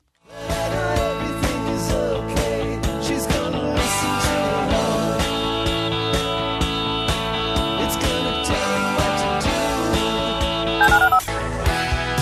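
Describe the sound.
Touch-tone dialing beeps in a law-firm advertisement jingle, a rapid string of short tones set into loud, continuous music.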